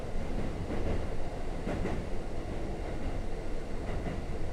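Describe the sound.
A train runs on rails with a loud, continuous, heavy rumble that stays steady and broad throughout, and a few faint clacks show within the roar.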